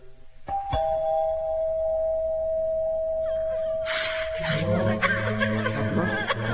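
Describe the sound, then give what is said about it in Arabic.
A doorbell rings with electronic chime tones that hold for several seconds, and more chime notes and other sounds join in during the second half. “ندق الجرس.”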